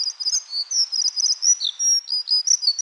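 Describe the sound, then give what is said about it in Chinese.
Two small birds chirp as they eat, giving many quick, high-pitched tweets and short twittering calls in an irregular, busy rhythm, with no other sounds around them. “俾呢两只雀仔食。 哇！ 呢两只雀仔食得好开心啊！”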